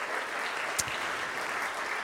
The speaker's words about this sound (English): Give them a hand. Don't you appreciate their ministry?